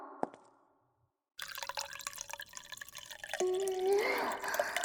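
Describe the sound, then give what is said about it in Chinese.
Water being poured to make tea: after a faint tap and a moment of silence, a steady splashing pour starts, then a clear tone rises in pitch as the vessel fills. “泡茶倒水的声音听得我好想尿尿啊。”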